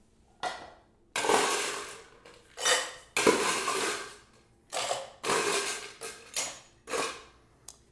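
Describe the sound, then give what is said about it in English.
Ice rattling hard inside a two-piece Boston cocktail shaker as a drink is shaken with a big scoop of ice: loud, clattering bursts of uneven length with short pauses between them. “So I'm going to shake this up with a big old scoop of ice.”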